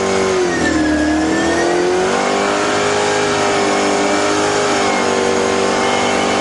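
Loud race car engine revving steadily as a racing champion drives off for a spin outside Charlotte; the continuous engine tone dips slightly in pitch early on, then holds steady with no talk.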